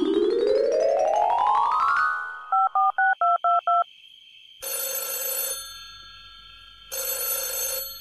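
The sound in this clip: A telephone call being placed: a rising electronic sweep, five quick evenly spaced dialing beeps, then two long buzzing rings separated by a pause, all fairly loud and without talk.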